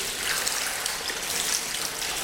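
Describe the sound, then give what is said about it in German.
Water is poured from the back of the knee down over the lower leg so that it coats the whole shin as a sheet of water, producing a steady, continuous trickling splash that holds an even level throughout. “Das lasse ich da jetzt einfach von der Kniekehle nach unten laufen, damit sich da so eine richtig schöne Wasserplatte bilden kann, die den ganzen Unterschenkel ummantelt.”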